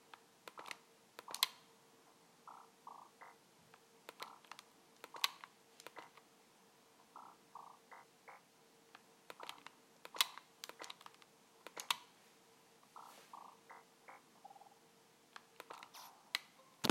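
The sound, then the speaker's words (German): Someone types on a computer keyboard to enter a chat message during an online game. Faint, irregular keystroke clicks come in quick clusters and scattered single taps throughout, with no talking. “Ich schreibe I was in Reactor.”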